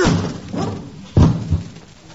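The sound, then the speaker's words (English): Heavy, dull thuds as people throw themselves against a locked door: a few low, blunt impacts, with the loudest landing just past the middle. “Why would anybody lock a door in broad daylight? All we have to do is throw ourselves against it.”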